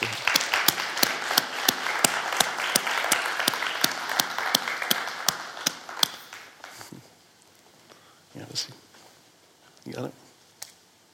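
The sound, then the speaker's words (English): Audience applause welcoming a pastor to the stage: many dense, rapid claps that hold steady, then thin out and fade about halfway through, followed by a few quieter scattered sounds and brief voices. “I, want to ask you um, to give me a hand as we just welcome uh, Pastor Peter to the stage.”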